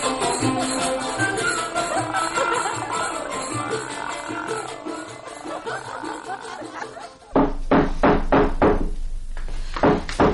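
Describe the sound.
Sharp raps of knocking on a door in a dramatized reading from a classical Arabic anthology arrive abruptly after a long stretch of chanted voice over background sound, several hard knocks in an uneven run.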